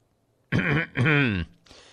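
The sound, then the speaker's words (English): A person clears their throat in two rough, voiced, rasping bursts, the second a little longer, followed by a brief softer breathy trail, with no talking. “Let me clear my voice or clear my throat for this.”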